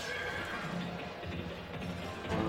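A horse whinnies as riders set off, a faint neigh buried in a dense, steady, rumbling background.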